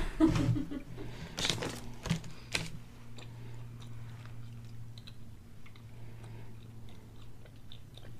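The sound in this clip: Faint, soft chewing of a gummy candy: a few wet, sticky clicks and smacks in the first seconds, then quiet chewing over a low steady hum.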